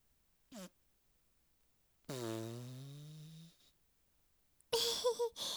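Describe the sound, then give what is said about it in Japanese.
Fart noises inside a car: a short blip, then after a pause a long, buzzy, tonal fart lasting over a second, and finally a rough, sputtering burst near the end. “出ちゃった。君と二人きりで密室、私がおならしないわけないよね。”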